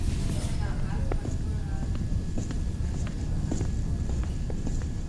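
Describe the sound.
Footsteps of people walking, light, fairly regular steps landing about once every half second to a second over a low rumbling background.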